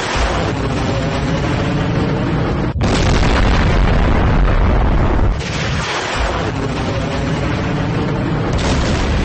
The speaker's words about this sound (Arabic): والصواريخ الباليستية 303 انطلقت من عمق الأراضي الإيرانية بشكل متزامن ودمرت بدقة عالية جميع الأهداف المحددة مسبقا في بحر عمان.